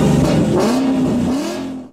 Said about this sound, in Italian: A Cagliari quando dici Ford, suona così.